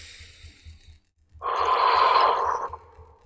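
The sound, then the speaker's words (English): One long deep breath taken during a breathing exercise: a broad, airy rush that lasts more than a second, with soft low pulsing sounds before and beneath it. “And then take a nice deep breath.”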